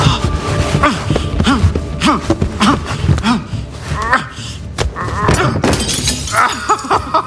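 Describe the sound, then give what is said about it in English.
Glass lamp breaking and shattering: a busy run of sharp crashes and tinkling clinks spread across about seven seconds, fairly loud throughout, with vocal sounds mixed in among the breakage. “I got hold of a shard of the broken lamp.”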